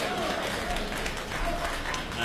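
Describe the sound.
Applause from an audience at a traditional opera and ballad performance: a dense, even wash of clapping that holds steady for the whole stretch, with faint crowd voices mixed in.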